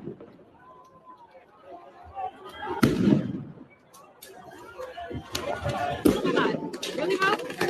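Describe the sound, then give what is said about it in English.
A cover bomb goes off during a protest where federal agents face crowds: a sharp, loud blast, then another burst of bangs later. Crowd chatter and talking run throughout. “Oh, they got a cover bomb. Oh shit, they came in from inside.”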